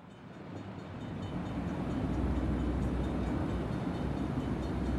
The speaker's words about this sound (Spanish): Estás en el interior de un tren.